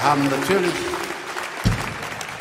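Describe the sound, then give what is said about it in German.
Audience applause at a performance before an encore, a steady dense wash of clapping throughout, with a voice speaking over it at the start. “wir haben natürlich mit diesem Applaus gerechnet”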